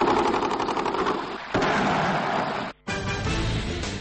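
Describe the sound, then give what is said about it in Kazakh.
Sustained gunfire from various weapons in Ashgabat, Turkmenistan, forms a dense, continuous roar of overlapping shots. A brief, sharp gap cuts it near the end before the firing resumes. “Сонымен өткен аптаның сенбісі күні Түркменстанның астанасы Ашхабадта ұзақ уақыт бойы түрлі қарудың атысы естіліп тұрды.”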